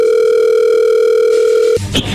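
A telephone dial tone holds a loud, steady pitch for nearly two seconds as a call is placed, then cuts off abruptly and gives way to brief clicking noises.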